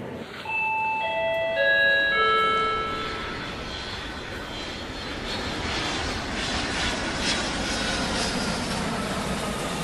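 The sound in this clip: Airplane sound effect: a chime of several staggered tones opens it, then a steady, broad aircraft engine roar continues alone to the end.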